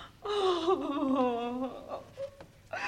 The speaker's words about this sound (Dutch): Toen de kinderen die avond om een boterham vroegen, sloeg moeder de schort voor haar ogen en begon te huilen.